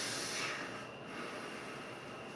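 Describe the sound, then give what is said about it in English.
Hydrogen peroxide sprayed onto gauze makes a continuous airy hiss and fizz, slightly louder in the first half second, then steady to the end. “I'm gonna spray it now, so it'll be a little cold and fuzzy, bubbly and fizzy, because it's hydrogen peroxide”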